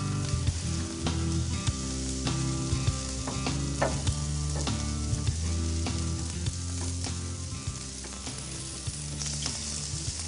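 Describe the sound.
Bacon-wrapped, cheese-stuffed chili peppers sizzle and char in a hot pan, with a loud, steady frying crackle throughout and many small sharp pops scattered over it.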